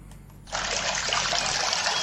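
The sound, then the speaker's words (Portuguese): Mineral water trickles from a centuries-old mountain spring fountain. After a half-second of near quiet, a steady, bright, hissing flow starts abruptly and runs on evenly to the end. “pure cristalina água de Ciuta, água mineral captada a 950 metros de altitude na fonte centenária de Ciuta Serra”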